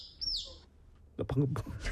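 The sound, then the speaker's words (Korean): A single high bird chirp rings out inside an airplane cabin, a short warbling call that slides down in pitch. After a brief quiet gap, a person begins speaking. “방금 뭐였어요? 비행기 안에 새가 있어요. 새가 있어요, 여러분.”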